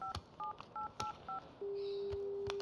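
Telephone keypad tones sound as a number is dialed: five short dual-tone beeps at a quick, uneven pace, then a steady low continuous tone, all faint.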